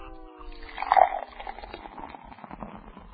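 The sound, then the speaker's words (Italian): Beer poured into a glass: a faint, gurgling, splashing stream that swells briefly near the start, then continues as softer, bubbly trickling. “Fa una sghiuma però questa birra.”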